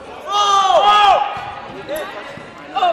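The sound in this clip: A volleyball being served in a varsity boys' high school region match, a bounce-like ball impact heard among raised voices from the gym.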